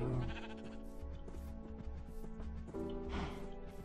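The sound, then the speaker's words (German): Sheep bleat in a video game, a few wavering, strongly harmonic cries layered over continuous game sound that stays loud and steady throughout, with no one talking. “Ich meine, wir können auch gleich ein Schafgehege machen, wenn wir schon Schafe am Start haben.”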